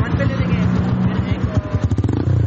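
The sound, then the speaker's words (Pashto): Motorcycle engines of a group of touring riders in Charsadda, a throaty, pulsing throb that quickens into rhythmic revving bursts toward the end, loud and close. “دا په چارسده کې موټر سایکل سوار سیلانیان دي”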